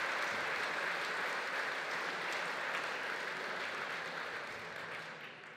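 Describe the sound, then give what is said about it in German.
Audience applause welcoming a former mayor at a public event, a quiet, steady clatter of many hands that slowly fades toward the end. “Applaus”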